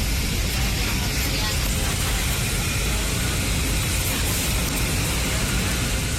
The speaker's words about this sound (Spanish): Así sonaba dentro del avión.